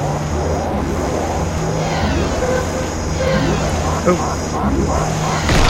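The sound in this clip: Continuous engine-like drone of a vehicle accelerating in a space-themed video game with asteroids, steady and fairly loud throughout, with tonal game sounds layered over the rumble.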